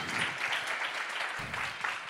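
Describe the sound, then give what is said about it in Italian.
An audience applauds a book author at a live event with a steady, dense burst of many hands clapping for the full two seconds. “Io quindi vi chiederei un grandissimo applauso per Michele Wad Caporosso.”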